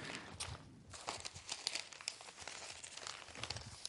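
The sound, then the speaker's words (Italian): Newspaper pages being handled, a soft, continuous crinkling and rustling of paper with small crackles throughout, quiet and with no voices. “per esempio sul Fatto, a pagina 6, eccolo qua, Fatto a pagina 6”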